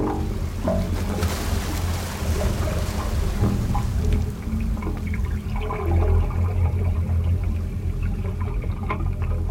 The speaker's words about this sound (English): The wave organ allows us to eavesdrop on the changing tides as the Pacific Ocean mingles with the waters of the bay. The instrument's music changes with the ebb and flow of the tide